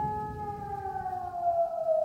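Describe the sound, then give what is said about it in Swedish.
A siren sounds early in the morning from somewhere up on a mountain. It is a faint, steady tone with overtones that slowly glides lower in pitch over a low background hiss, with no talk. “Redan nu så hör ni återigen den här sirenen. Jag har inte hört den så här tidigt på morgonen tidigare. Men den ljuder och den måste ligga här uppe.”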